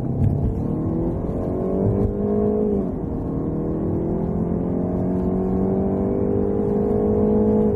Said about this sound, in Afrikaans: Die E-Pace is opvallend aantreklik en lyk atleties met hoë bultende agtersteuwe. Ek het die middelste 2 liter turbo petrol model gery, die P250.